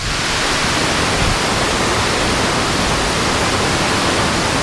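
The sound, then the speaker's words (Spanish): The Guadalquivir river roars over the spillway of the dam at Alcalá del Río, swollen after a storm. It makes a loud, continuous, dense rushing wash of water with no breaks and no voices. “El río no pasa, el río ruge, como estamos comprobando en este salto de agua aquí en la mitad del puente, en esta presa del Guadalquivir. Lo escuchamos en directo.”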